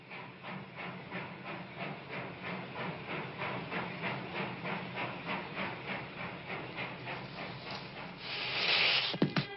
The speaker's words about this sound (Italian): La scena riguarda l'arrivo del dottor Frankenstein alla stazione ferroviaria.